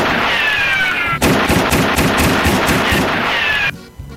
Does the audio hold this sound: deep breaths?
no